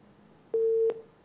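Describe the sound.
Busy tone on a phone line after a call from a caller in Sudan drops: a steady mid-pitched beep sounds alone, holds briefly, stops, and then starts again at the end.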